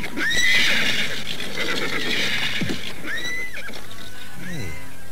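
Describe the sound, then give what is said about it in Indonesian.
Horses being ridden around a royal city, with several loud whinnies rising over a steady background of hoofbeats. “Mereka terus berkuda berkeliling hingga tiba di gerbang timur dari Kota Raja Galuh.”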